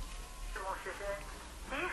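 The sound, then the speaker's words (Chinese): A caller's voice comes through a telephone line into a radio phone-in show, narrow and thin in tone, with steady talk over the connection. “我们来接电话。”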